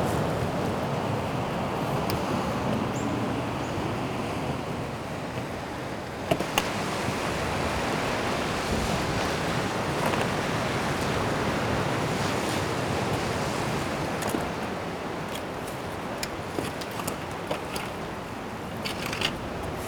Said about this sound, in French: C'est l'océan qui vous raconte.